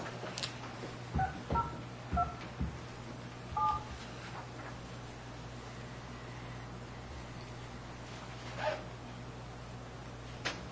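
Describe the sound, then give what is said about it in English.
Telephone keypad tones dial an account code: a few short dual-pitched beeps at uneven intervals over a steady low hum, with long quiet gaps between presses. “The account code you have dialed is not valid.”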